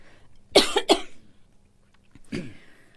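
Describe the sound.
A person coughs during a pause in talk: a few harsh, breathy bursts, with a quick close pair followed by a single later cough.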